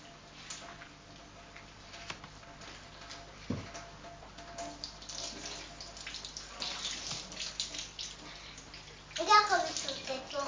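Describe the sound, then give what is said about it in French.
Tap water runs steadily into a basin in a soft, continuous splashing stream while a child and an adult talk over it. “Dépêche-toi parce qu'il y a l'eau qui coule.”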